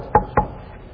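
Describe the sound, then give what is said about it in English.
Two knocks on a door, sharp dull thuds about a quarter second apart, heard alone over a low background rumble. “Has anyone ever been visited by a knock on your door?”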